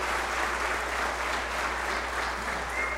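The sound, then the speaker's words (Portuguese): Applause for a vice-mayor at a civic gathering: dense, steady clapping from a crowd that holds at an even level throughout the three seconds, with no break or voice. “eu gostaria de uma salva de palmas para o nosso vice-prefeito, Marcelo Lima”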